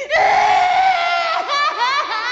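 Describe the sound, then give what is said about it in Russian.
A boy of about eight to ten shrieks as he bursts out onto a terrace, a loud, continuous, shrill scream whose pitch wavers and dips a few times toward the end. “На террасу из внутренних комнат выскочил, как бомба, издавая пронзительные крики, мальчик лет 8 или 10.”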